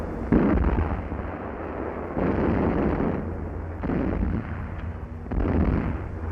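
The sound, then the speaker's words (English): Anti-aircraft guns fire at enemy aircraft in a wartime film: four heavy booming bursts, each followed by a sustained rumble. “Schon auf weite Entfernung werden die Feindflugzeuge bekämpft. Anti-aircraft guns tried to neutralize the danger overhead.”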